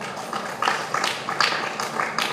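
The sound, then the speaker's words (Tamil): Hands clapping at a devotional talk when the audience is asked to clap. A few loose, separate claps land roughly every half second at moderate loudness, with no steady rhythm. “போடு கையை தட்டு.”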